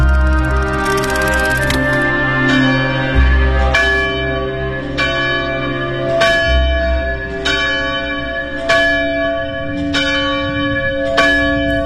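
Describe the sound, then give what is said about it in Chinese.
A monastery church bell rings in the early morning on a mountain above a river. Many evenly spaced strikes each leave a long, humming tone that carries under the next one. “那个时候每天清晨都能听到从修道院里传来当当当的敲钟声”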